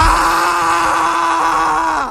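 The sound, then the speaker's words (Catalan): A person screams loudly on a city avenue: one sustained, steady-pitched cry of about two seconds that dips slightly at the end. “Tu pots cridar molt fort tota l'estona que vulguis.”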